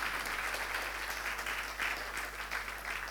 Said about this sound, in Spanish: Muy bien, el aplauso es para el Señor